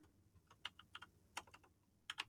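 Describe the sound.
Typing on a computer keyboard while writing a note: faint, irregular keystroke clicks, several in quick clusters with short pauses between them, with no voices.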